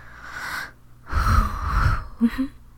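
A person breathes heavily with wheezing, giving a few strained, rasping gasps of uneven length, with the middle breath the longest and loudest.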